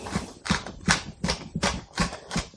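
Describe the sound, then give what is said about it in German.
Mixing strokes as Turkish bulgur salad (kisir) is stirred with pepper, seven regular clacking beats at a steady rhythm, each a sharp percussive hit with a short scraping tail, fairly loud and without talk. “So, ich vermenge das Ganze mal ein bisschen. Gebe noch ein bisschen Pfeffer dazu.”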